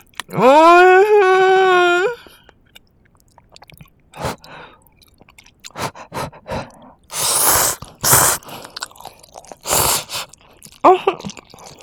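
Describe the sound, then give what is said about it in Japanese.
Eating instant ramen noodles: several loud, wet slurps and bursts of chewing come in separate short bouts, with quieter pauses between them. “こんなインスタントラーメンが一番美味しいよ。いただきましたよ。”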